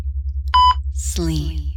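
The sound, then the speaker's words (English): A single short electronic beep sounds when a button is pushed on anesthetic gas equipment. The steady mid-pitched tone is followed by a voice speaking, over a regular low pulsing throb. “Each time I push that button, each time you hear the beep”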